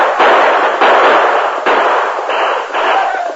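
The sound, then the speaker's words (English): Gunfire sound effects from a western radio drama, with a mounted posse firing on men leaving a cabin: several loud, sharp bursts that each ring out briefly, spaced roughly evenly, with no voices. “Ride around them. Keep firing down at them.”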